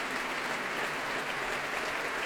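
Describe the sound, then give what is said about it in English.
Dense, steady applause from a concert audience for a trio, with the orchestra also applauded. The clapping is loud and even, with no break from start to finish. “Myung-Woon Chung stands back to let them bask in this applause, so well deserved. And they applaud the orchestra”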